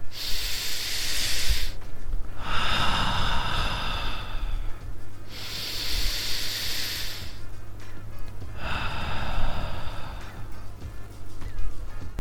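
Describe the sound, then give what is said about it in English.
A person breathes slowly and deeply while holding an upright posture. The long, airy hissing breaths come in an unhurried series, steady and fairly loud, with no talking. “Now breathe slowly while looking at yourself.”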